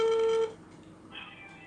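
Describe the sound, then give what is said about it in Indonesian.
A phone call connects over WhatsApp: a steady electronic tone cuts off sharply, and a fainter, higher beep follows after a short pause. “terus terus ini kita mencoba tersambung langsung sama teman kita nih”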